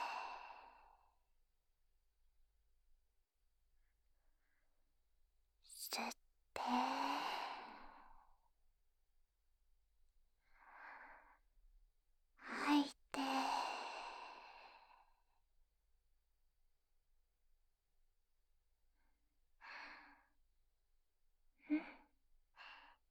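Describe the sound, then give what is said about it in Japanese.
Slow, deep breathing in and out, guided to help relax before ear cleaning: soft airy inhales and longer whooshing exhales come in a few widely spaced breaths, faint, with quiet pauses between them. “深呼吸をしてリラックスしましょうか。吸って吐いて、”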